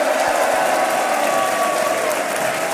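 A theatre audience at the Théâtre du Peuple stomps their feet and applauds, producing a dense, loud, continuous roar with a few low thuds early on, sustained throughout.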